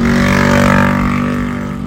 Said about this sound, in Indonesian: Aduh, berisik banget ternyata bikin podcast kalau di dalam nyetir.